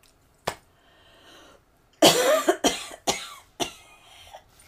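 Coughing after choking on a drink: one early cough, then a loud burst of harsh, hacking coughs followed by a few more sharp coughs spaced apart, with no talking.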